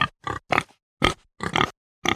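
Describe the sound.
A pig grunts in a children's animal-sound guessing game, giving a rapid series of short, rough, snorting grunts separated by brief silences.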